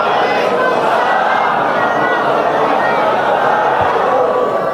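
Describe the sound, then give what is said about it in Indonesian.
A crowd of listeners calls back in answer to an Islamic greeting, their many voices merging into one loud, sustained mass of sound with no pauses. “Dari bunyi sambutan salam, nampaknya belum makan siang.”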